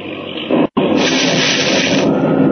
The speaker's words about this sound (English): Great heavens, lightning. Bolt of lightning struck the plane and smashed to pieces on fire.